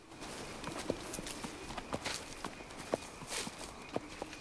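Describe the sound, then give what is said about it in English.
Hooves of a mule, led on a rope, plod over fallen leaves in a forest at night, together with footsteps. Faint, uneven soft thuds and crunches come in a loose walking rhythm. “Later at night, 2 feet trudge over fallen leaves in the forest. They belong to the boy, who holds a lantern and pulls a mule on a rope behind him.”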